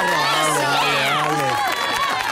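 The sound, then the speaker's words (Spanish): Crowd cheering and shouting voices give a farewell to the taxi drivers of Pantelano. The noisy, excited burst stays loud and steady through the whole moment, with only a little clapping mixed in. “Y que vivan los taxistas de Pantelano. Póngale un aplauso de despedida. Aplausos.”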